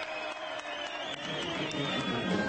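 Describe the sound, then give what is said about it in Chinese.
A crowd cheers through a July festival in Matera, the town's biggest yearly celebration, more than 600 years old, with streets full of residents: a dense, steady roar of crowd noise with an applause-like texture and a thin high whistling tone above. “七月，马泰拉沉浸在欢乐的乐声和欢呼声中。”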